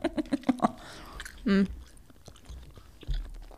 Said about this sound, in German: Haha, es ist ein Kaffee-Kaugummi, gell? Ist ein Kaffee-Kaugummi mit Koffein.